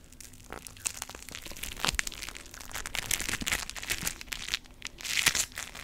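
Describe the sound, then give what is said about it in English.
Floam is squeezed and crushed by hand, giving many dense crackling, crunching pops in quick irregular bursts that grow louder toward the end. “You crushed it! Yeah! So, you bring back the crushed up floam to the little guy.”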